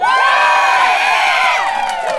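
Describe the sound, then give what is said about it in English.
A crowd cheering and whooping at the Wellington Pride Festival to welcome speakers to the stage, a loud, sustained wall of many high voices that holds steady throughout. “I want you to give them a gay old cheer to welcome them to the stage. Can you do that for me?”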